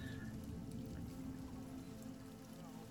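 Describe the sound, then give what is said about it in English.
Rain patters on the hood of a garment in a steady, even hiss that holds for the whole stretch, with a low hum beneath and no voices. “the rain pattering invisibly off his hood”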